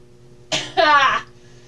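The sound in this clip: A person coughs and clears their throat: a short rough burst, then a longer phlegmy rasp, followed by quiet.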